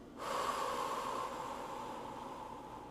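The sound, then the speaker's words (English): A deep breath drawn in through the nose makes a soft, airy rush lasting about a second, then fades into quieter, steady breath noise; the whole sound stays faint. “So we're going to do a deep breath in through the nose. Hold it. And exhale.”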